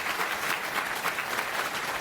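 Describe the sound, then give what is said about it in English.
Audience applause at a conference talk as a speaker is introduced: dense, steady clapping from many hands holds at an even level for the full two seconds, with no voices rising above it. “Round of applause”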